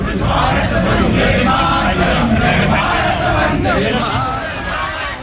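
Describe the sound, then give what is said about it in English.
A crowd chanting 'Modi' at a welcome for Narendra Modi: many voices shouting together, loud, dense and continuous throughout. “The venue echoed with chants of Modi Modi and Vande Mataram as he arrived.”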